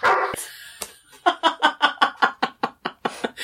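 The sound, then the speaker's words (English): Dog barking used to cover spoken words: a rapid, steady run of many sharp, evenly spaced barks after a short, noisy burst at the start. “We'll have to put a bark over some of the words.”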